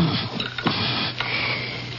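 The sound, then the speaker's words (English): Digitalis leaves are ground in a mortar with a pestle, giving a continuous rough scraping and grinding noise with a few stronger strokes standing out. “Now I place these leaves into the mortar and grind them up.”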